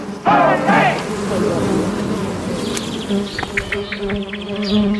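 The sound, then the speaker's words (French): Forager honeybees buzzing, the worker bees that collect nectar and pollen from flowers and carry it back to the hive: a dense, continuous buzz that stays loud throughout. “vous les butineuses, vous allez chercher le nectar et le pollen dans les fleurs à l'extérieur et puis vous le rapportez dans votre ruche”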